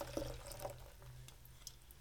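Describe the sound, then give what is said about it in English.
Orange vanilla soda water is poured into a mixed drink of rum, beer, seltzer and orange drink. It makes a faint, steady liquid trickle with a few small drip-like splashes over a low hum. “we're going to add Waterloo Orange Vanilla Soda Water”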